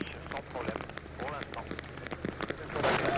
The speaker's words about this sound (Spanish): Es lluvia, ¿eh? No es granizo ni nada por el estilo.